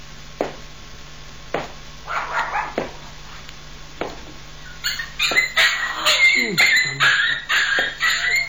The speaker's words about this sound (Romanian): Cum? Soția mea mi-a dăruit doi căței? Nu se poate! Doi căței!